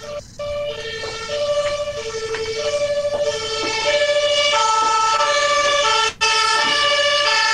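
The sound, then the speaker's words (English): A non-standard emergency siren wails in a loud, continuous two-tone pattern, alternating between a higher and a lower note in repeated cycles over a low rumble of road traffic. “That was a non-standard siren to my American ears.”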